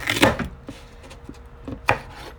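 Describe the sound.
A knife chopping a green bell pepper into quarters on a cutting board: a few dull, irregular knocks, the first one loudest, with quieter scraping between them.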